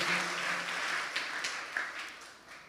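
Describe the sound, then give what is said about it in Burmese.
A church audience claps in praise of Jesus, a dense, even wash of applause that runs steadily from start to finish, at moderate volume. “ထိုယေရှုရဲ့ချစ်ခြင်းမြတ်တာအတွက်လက်ခုပ်တီးလျက်ယေရှုတော်ချီးမွမ်းရအောင်အာမင်”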